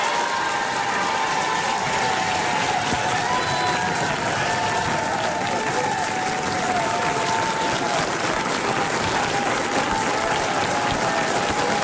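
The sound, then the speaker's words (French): A studio audience applauds a singer's arrival with dense, steady clapping that stays loud and continuous throughout, without a break. “Je voudrais s'il vous plaît que vous réserviez l'accueil qu'il mérite à Michel Sardou.”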